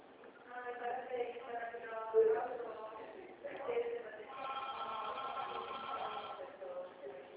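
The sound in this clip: A phone line rings out during an outgoing call that keeps dropping: a band-limited telephone tone with steady harmonic bursts, heard in stretches separated by short gaps, fairly loud and alone.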